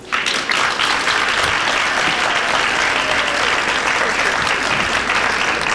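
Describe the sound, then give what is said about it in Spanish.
An audience applauds to welcome a performer onto the stage at a show. The clapping is loud, dense and unbroken throughout. “Por favor, denle una calurosa bienvenida a Karina Cantor, quien se ha memorizado algo para nosotros.”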